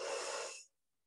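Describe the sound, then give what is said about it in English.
A single brief, breathy rush of air during a guided deep-breathing exercise, fairly soft and steady, then cut off abruptly into silence. “take a deep breath in through the nose and out through the mouth.”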